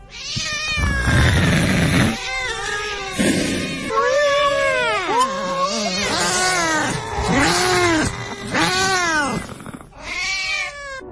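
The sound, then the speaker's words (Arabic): Three black cats come out from under a bed, meowing and yowling loudly: many drawn-out, overlapping calls that swoop up and down in pitch, continuing almost without pause. “لقيت بيخرج من تحت السرير تلات قطط لونهم اسود.”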